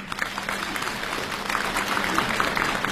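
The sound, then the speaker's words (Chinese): An audience applauds at a crosstalk comedy show. Many hands clap in a dense, even patter at moderate volume, continuing without pause. “感谢朋友们的掌声。”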